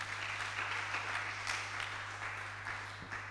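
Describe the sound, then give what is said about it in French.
Applause at a religious gathering, a soft, even patter of many hands that continues throughout over a steady low electrical hum. “Acclamez pour les frères.”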